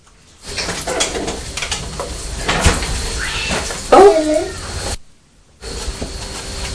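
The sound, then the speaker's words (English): Cats fighting outside let out a short, loud yowling cry that flares up once amid low household background, then the sound drops away briefly before the quiet background returns. “Sounds like a pussycat's fighting outside, but it's not Purdy”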